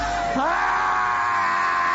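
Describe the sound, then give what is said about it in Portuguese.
A person lets out one loud, sustained scream during a religious prayer session, its pitch lifting briefly near the start and then holding as a strained, harsh tone to the end. “Vai gritando pra Jesus queimar ele.”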